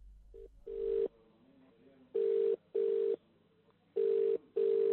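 Ringback tone of an outgoing telephone call placed by a radio host during a live program: buzzy, steady mid-pitched tones come in three pairs, each pair separated by a short silence.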